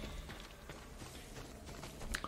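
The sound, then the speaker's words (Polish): Faint clip-clop of a horse's hooves in a video game, a soft, irregular run of hoof taps with a slightly sharper knock near the end. “Aha, to koń oczywiście.”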